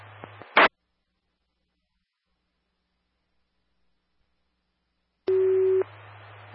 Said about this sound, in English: These are test tones. Please advise if your station tones went off.